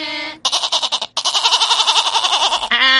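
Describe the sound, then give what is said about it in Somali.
A person imitates a goat's bleat with a loud, wavering, tremolo voice: a few stuttering bleats, then a long quavering bleat, and a brief higher vocal tone at the end. “Hadana waxaad ii sheegtay rido waxay u yida”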